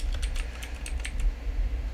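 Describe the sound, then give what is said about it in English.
Light keystrokes on a computer keyboard as someone types a search online, soft clicks in quick irregular bursts over a steady low rumble. “Let me see. I'm going to have to Google it.”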